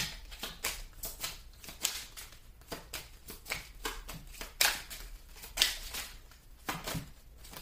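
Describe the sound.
A deck of cards is shuffled before one is drawn, giving many crisp riffling and slapping bursts in an irregular rhythm, a few of them sharper and louder, with no talking.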